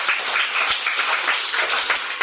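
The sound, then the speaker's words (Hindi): Group clapping, called for in celebration of a little girl, forms a dense, steady patter of hand claps at even loudness for the whole stretch, with no voices over it. “ताली बजा प्यार के लिए।”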